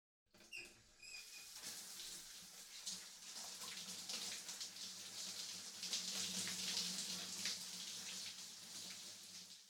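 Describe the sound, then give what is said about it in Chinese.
Warm water pours and splashes while a body is rinsed in a bath, a steady broad hiss that starts abruptly after a brief silence and continues evenly throughout, with no voices. “替你冲洗身子。 感觉舒服吗？温暖的热水使身心都不断的放松呢。”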